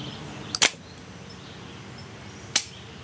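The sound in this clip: Sharp mechanical clicks as a Boito Pistola 28 single-shot gun with a rounded grip is broken open: a quick double click, then a single crisp click about two seconds later, over faint background hiss.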